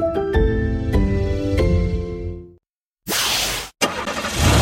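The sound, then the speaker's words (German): Engines starting at a motorsport event: after a ringing musical chime and a short silence, two loud bursts of rough engine roar follow, separated by a brief gap. “Die Motoren starten und das heißt, die PS Arena ist wieder da.”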